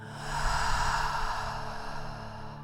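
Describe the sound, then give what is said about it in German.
A slow, deep breath drawn in through the nose and released through the mouth in a guided relaxation meditation: a soft, airy rush that swells and fades gently over a low steady hum, with no talk. “Nochmal tief durch die Nase einatmen und durch den Mund wieder ausatmen.”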